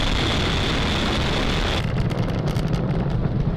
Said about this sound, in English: Falcon 9 has cleared the tower, lifted off from Cape Canaveral Falcon Space Force Station.